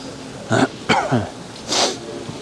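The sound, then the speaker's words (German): A few short, harsh coughs and throat-clearing bursts from people in a busy public street area lined with cafés, spaced irregularly and fairly loud over a steady background hum. “Das Schlimme hier ist, also hier scheint ja so ziemlich jeder Zweite die ganze Zeit zu husten.”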